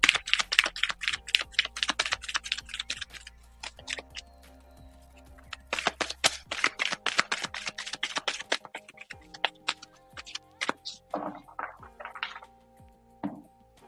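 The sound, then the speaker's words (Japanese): Tarot cards being shuffled, with many rapid, crisp slapping and flicking clicks in two long dense runs, then a few scattered softer taps and shuffles. “カードをシャッフルしますね。”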